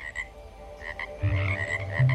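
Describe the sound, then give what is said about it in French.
Frogs of an unidentified species croak in a garden: a few deep, rasping croaks in the second half, over faint background noise, with no talk. “je sais même pas quelle espèce de grenouille c'est.”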